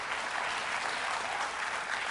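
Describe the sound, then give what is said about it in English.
Audience applause fills the space, a short and even burst of many hands clapping at moderate loudness that holds steady from start to finish without voices on top. “Now, I see that about a third of you applauded to that.”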